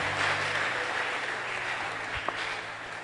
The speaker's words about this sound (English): Clap for Jesus.